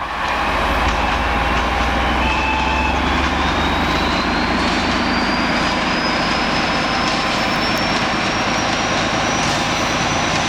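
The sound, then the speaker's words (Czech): A Czech 'brejlovec' diesel locomotive hauls a special train past a level crossing in fog. Its loud, steady engine drone carries a thin whine that climbs slowly in pitch. “No je to brejlovec. Stál 2 hodiny v mlze u přejezdu”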